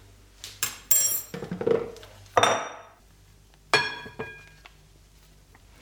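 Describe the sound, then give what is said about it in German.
Clinking and scraping of utensils in a large bowl as flour, salt and baking powder are mixed together; a few sharp knocks and rattles come in quick succession, then a couple of louder separate clatters. “Das Mehl, Salz und das Backpulver tun wir in einer grossen Schüssel vermischen.”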